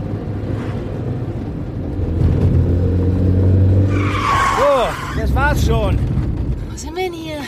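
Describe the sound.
A car drives off, its engine rumbling low and steadily and growing stronger over several seconds as it pulls away, with higher chirping tones appearing in the later part.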